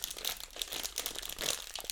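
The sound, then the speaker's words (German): Crinkling of a plastic snack bag being opened: many quick, bright crackles and rustles that come in bursts, with no talk. “Ich mache mal gerade die Tüte auf, Achtung.”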